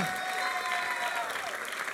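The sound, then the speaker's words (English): Applause from an audience at a stand-up comedy show, dense, sustained clapping at an even level across the whole clip. “Tig Notaro does this stand-up routine where she gets on stage, introduced Tig Notaro, yay, everyone claps”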